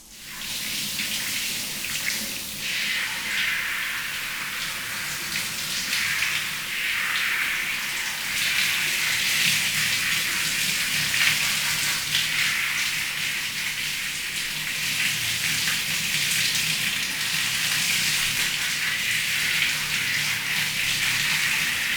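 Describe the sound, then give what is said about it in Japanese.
Shower water spraying steadily as it rinses someone's hair in a bath, a constant hissing gush that holds at an even level with no talk over it. “そしたらシャワー貸して。 え、髪の毛流してくれるの？”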